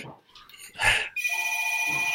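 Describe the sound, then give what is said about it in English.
An old landline telephone rings with a steady, shrill electronic tone that starts abruptly partway through and holds on, after a short burst of mixed noise. “That is a landline. You guys, they have this phone that's from my childhood over there.”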